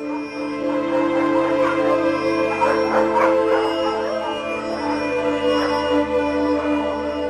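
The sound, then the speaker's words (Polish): Dogs bark in a village on a cold, clear, still night, a few short barks with a second dog seeming to answer, set over a steady sustained tonal backdrop. “Cicha. Tylko pies zaszczekał we wsi. Drugi odpowiedział.”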